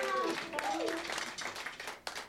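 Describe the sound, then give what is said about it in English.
Audience applause for a band: a dense, steady wash of clapping that runs throughout, with voices audible over it at the start. “How about a nice hand for the band?”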